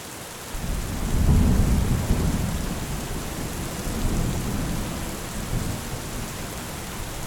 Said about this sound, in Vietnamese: Ngoài trời mưa rơi tầm tã như trút nước. Cơn mưa kéo dài từ trưa đến tận bây giờ vẫn chưa có dấu hiệu nào là sẽ tạnh.